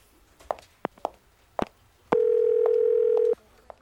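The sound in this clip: A telephone dial tone sounds while a call is being placed: one steady, unbroken low hum that holds for just over a second. A few sharp clicks and taps come before it, and one more follows.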